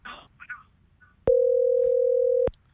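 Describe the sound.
A telephone dial tone for a call being placed: a single steady mid-pitched hum lasting about a second, alone after a few faint brief noises.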